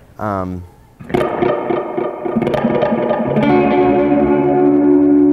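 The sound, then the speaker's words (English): Guitar played through an echo pedal standing in for a solid state Echoplex: picked notes repeat and pile up, building into a thick, sustained wash of echoes that grows steadily louder. “it's a solid state Echo Plex and it's fragile. Yeah, it is. You know, so I can't take that out and, you know, all the time and. So I just use that for recording. So this is a pretty good pedal that replaces that sound.”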